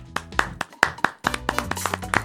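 Hand clapping, many irregular sharp claps of varying loudness spread across the whole stretch, with brief gaps between bursts.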